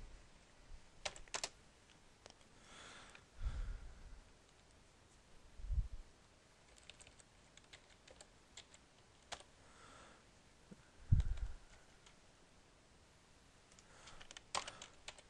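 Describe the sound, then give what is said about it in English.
Quick typing on a computer keyboard, a quiet scatter of light key clicks in irregular bursts with a few louder taps, and no voices. “So rather than you have to watch me type, I'll do that really quickly, and then we can continue.”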